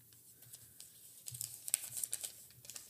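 A paper slip drawn from a hat, heard as a faint, continuous run of crinkling and scratchy rustles that thickens into denser crackles partway through.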